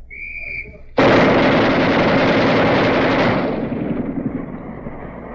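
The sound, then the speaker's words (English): A two-barrel machine gun fires its 60-caliber barrel during a weapons demonstration. A loud, continuous burst of rapid fire lasts about two seconds after a faint high tone, then gives way to a quieter, rumbling tail. “that was the 60 caliber barrel firing it, but that gun, machine gun, has two barrels”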